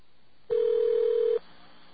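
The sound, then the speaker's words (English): A single steady telephone tone sounds while dialing a toll-free hotline number, a clean mid-pitched beep lasting under a second, clear and alone against faint line hiss. “try out that 800 number that a listener gave us”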